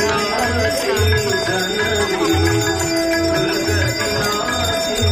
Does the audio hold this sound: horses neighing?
no